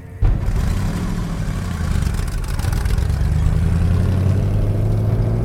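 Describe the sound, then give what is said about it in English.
Low truck engine rumbling loudly and steadily as the vehicle drives off, a continuous drone with no voices. “The truck drives off.”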